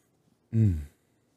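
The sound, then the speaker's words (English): A single brief throat clearing, a short low rasping burst of voice standing alone in otherwise silent surroundings. “You just said anyways and then cleared your throat and didn't say anything.”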